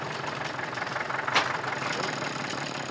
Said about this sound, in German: Wir holen den Trecker jetzt.